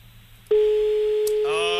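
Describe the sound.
A telephone ringing tone on an outgoing call: one steady, unbroken mid-pitched tone begins partway in and holds at even loudness to the end, over a faint background hiss.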